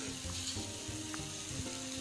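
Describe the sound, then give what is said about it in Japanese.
Chinese yam slices sizzle as they fry in a thin layer of oil in a pan and begin to scorch. The crackling hiss is steady and continuous, with a low hum underneath. “ジュージューいってます、 ジュージューいってますよ”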